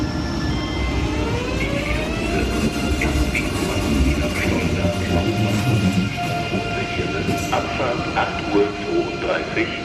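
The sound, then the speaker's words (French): A German ICE high-speed electric train starts up. Its electric drive gives off a steady rumble layered with whining tones that climb in pitch like a rising scale, running loud and continuous throughout. “lorsqu'il démarrait, le ICE, hein, le train rapide allemand, à partir de Telga, il faisait entendre...”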